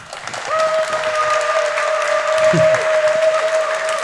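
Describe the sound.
Audience applause welcoming speakers to a talk: dense, steady clapping that starts quickly and fills the whole clip, with a thin, sustained ringing tone running through it.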